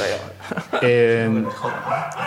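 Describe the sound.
A dog gives a short, tonal bark that stretches briefly into a whine-like note while people talk around it.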